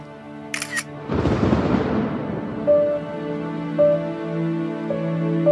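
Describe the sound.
A camera shutter clicks as a photo is taken: a short, sharp burst, then a longer noisy sweep, after which music with sustained tones plays alone.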